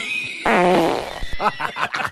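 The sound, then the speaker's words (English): A loud fart sound effect, one long, buzzy, low-pitched blast lasting about half a second that rises abruptly out of quiet. “released a loud fart before answering.”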